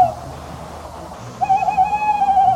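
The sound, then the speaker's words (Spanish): A tawny owl hoots at night, recorded around three in the morning. A faint tail of a note is followed by a long, wavering, quavering hoot held at a steady pitch for over a second against a quiet, hissy background. “grabé el sonido del cárabo, que hace así.”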